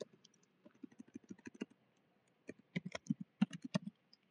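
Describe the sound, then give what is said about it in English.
Keystrokes on a computer keyboard as a web address is typed in: quiet bursts of quick clicks, a short flurry, a pause of about a second, then a denser run of taps that trails off. “I'll type in that tiny URL for that class.”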